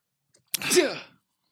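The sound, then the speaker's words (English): A single sneeze, loud and abrupt, with a sharp burst and then a short voiced tail that trails off into silence. “This is the second time in the second episode that you sneeze.”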